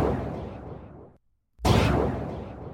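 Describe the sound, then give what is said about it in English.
A gunshot sound effect: a loud burst of broad noise fades out, breaks into a brief silence, then a second sharp, loud burst starts abruptly and decays slowly. “Shots fired. Pew pew.”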